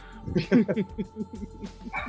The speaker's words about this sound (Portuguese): Eita, o cachorrinho latiu aí, não gostou?